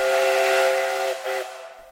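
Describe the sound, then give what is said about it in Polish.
A steam locomotive whistle gives one shrill, sustained blast lasting nearly two seconds, with steamy hiss beneath it, then fades out at the end. “Lokomotywa na potwierdzenie tych słów zagwizdała.”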